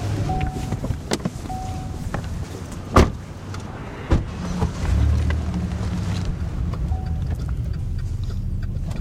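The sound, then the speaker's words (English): A car fueled with straw-based cellulosic ethanol gives a few clicks and two door thumps. A low, steady engine rumble then starts and continues, with no voices. “Well, all right, we got straw in the fuel tank. Let's go for a ride.”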